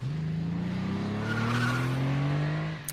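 A car drives hard with its tires skidding. The engine tone climbs steadily in pitch under a loud, sustained tire squeal, then cuts off abruptly near the end.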